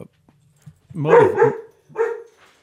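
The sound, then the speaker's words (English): Stirred-up dogs barking: a few short, yelping barks in quick succession followed by one more, with faint sounds before them. “She got the dogs all stirred up too.”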